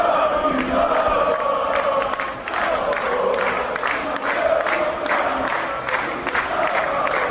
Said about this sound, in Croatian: Na Trgu Krajine bilo je nekoliko hiljada navijača i građana Banja Luke koji su pjesmom pozdravili fudbalere koji su jučer zvanično osvojili titulu šampiona.